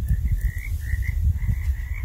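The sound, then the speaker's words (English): Frogs croaking in a dense, continuous chorus, with rapid low pulsing throughout and a steady, high-pitched trill rising and falling above it. No voices are heard. “the frogs are out.”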